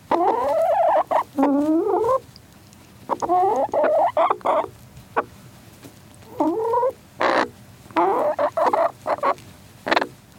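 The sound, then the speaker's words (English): Three chickens cluck in many short bursts of squawky, warbling calls separated by brief pauses, loud and with no talk. “So that was a sound of a chicken, and actually three chickens making sounds, and they're even talking a little bit right now.”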